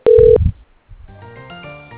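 A brief, steady telephone tone sounds once as a call is transferred to another extension, then gives way to a low rumble and a quieter, continuing sound.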